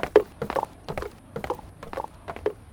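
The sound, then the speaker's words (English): Hooves of an animal galloping away on a moonlit midsummer night: many soft, quick, uneven hoofbeats at low volume, with no talk over them. “Doesn't she look fine and wild as she gallops off into the moonlight there?”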